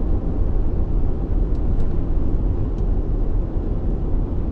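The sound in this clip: A car being driven, a steady low road rumble and engine drone that holds constant throughout, with no talk.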